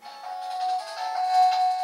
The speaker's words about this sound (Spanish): Si vemos cómo se enciende, directamente power y empieza a funcionar, suena...